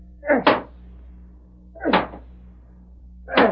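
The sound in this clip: Three heavy blows as a treasure chest in a cave is broken open. Each is a short, broad thud, evenly spaced about a second and a half apart, with quiet between.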